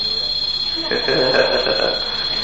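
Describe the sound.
Alarm clock sounding a steady, high-pitched electronic tone that runs without pause, with a voice briefly heard over it in the middle.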